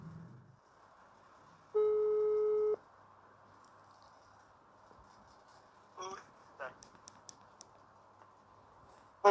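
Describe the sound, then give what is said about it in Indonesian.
A telephone ringing tone sounds while a call is placed: one steady electronic tone lasting about a second over a quiet background, followed by a few scattered soft clicks and taps. “Sekarang kita hubungin dulu si Ibi dari podcast Tepak Bulu.”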